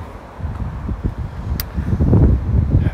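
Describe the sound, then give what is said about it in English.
Strong wind blowing outdoors on an overcast day, a gusty, low rumbling roar that buffets continuously and swells louder in the second half. “Overcast here. Windy as hell.”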